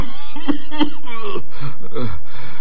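A man coughs twice in sharp, short bursts, followed by rough, raspy throat sounds and heavy breathing.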